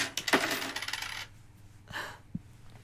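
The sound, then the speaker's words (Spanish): Coins are dropped as payment for poison, with a bright metallic jingle of several coins at the start, then a couple of fainter separate clinks as the sound settles. “Rompe la ley y recibe mi dinero.”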